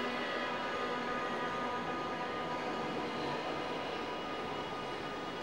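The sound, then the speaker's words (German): A Berlin subway train arrives as a steady, fairly quiet rumble and hiss with a faint tonal whine, unbroken and even throughout. “Die U-Bahn kommt. Ich steige ein. Der Zug fährt und fährt.”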